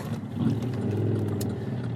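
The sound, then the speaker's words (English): Harley-Davidson motorcycles rumble past with a low, deep engine drone that stays loud and steady for the whole two seconds. “So, yeah, little bike action in front of me here, these, Harleys.”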